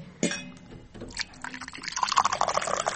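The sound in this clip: Water pours from a jug into a glass: a soft splash starts things off, then a steady trickling stream sets in and grows louder and busier toward the end.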